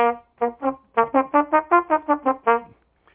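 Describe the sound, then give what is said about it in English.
A trumpet plays staccato, each note tongued to start and stop sharply. It gives a quick run of about a dozen short, detached, bright notes with small gaps between them. No one talks over it. “If I wanted to make that staccato, I'm starting and ending with t, so it sounds like this.”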